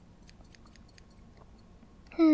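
Scissors trim hair into bangs with a few faint, crisp snips spaced unevenly across a quiet background.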